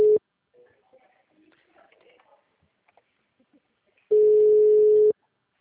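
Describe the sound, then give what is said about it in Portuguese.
A telephone tone sounds after a dropped call: a brief steady tone at the start, then faint scattered low sounds, then a second loud, level tone holding for about a second before cutting off. “Acabou caindo a ligação.”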